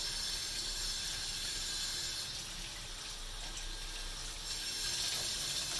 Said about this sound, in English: Carrots, wash the carrots.